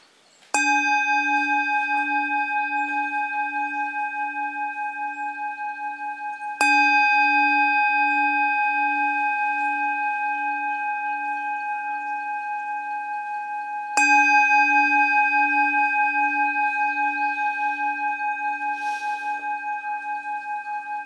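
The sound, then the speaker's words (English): A bell is struck three times at long intervals. Each stroke rings with a clear, bright tone over a pulsing low hum and decays slowly until the next strike. “let's start by listening to the sound of the bell.”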